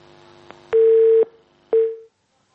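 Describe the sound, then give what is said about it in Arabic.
A telephone busy tone sounds after a dropped call: two steady, mid-pitched beeps separated by a short gap, with a faint click just before the first. “ها الاتصال انقطع.”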